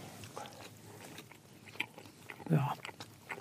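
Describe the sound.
A bite into a brown waffle made with cocoa powder gives one clear soft crunch that stands out against faint, low-level mouth and chewing noises.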